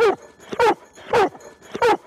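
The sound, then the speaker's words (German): A search and rescue dog barks at the spot where it has found someone. Its short, high, yelping barks repeat in a steady rhythm with clear gaps between them, and nothing else is heard. “Verbeller bleiben direkt am Fundort und bellen dort so lange, bis der Hundeführer bei ihnen ist.”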